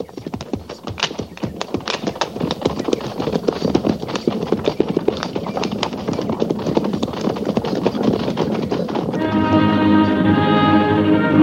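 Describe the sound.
A cavalry troop of horses trots on the Oregon Trail, making many busy, overlapping hoof clops in a quick, steady rhythm. Near the end a sustained harmonic tone joins in.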